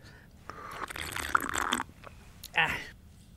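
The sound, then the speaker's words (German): Biting and chewing of cheesecake alongside mineral water, a run of crunchy, wet mouth noises in the first half, then a short, louder burst of chewing or swallowing near the end. “erstmal stärken mit einer Käsesahnetorte und dann eine Flasche Mineralwasser trinken”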